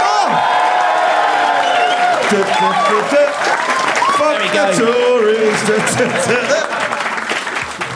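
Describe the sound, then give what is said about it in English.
Loud applause and cheering from a debate audience voting by applause. Whoops and shouting voices ride over continuous clapping, which eases slightly toward the end. “If you think, if you think that the oldies are in the right, and therefore James and Banjo Standen made the best case, please applaud now.”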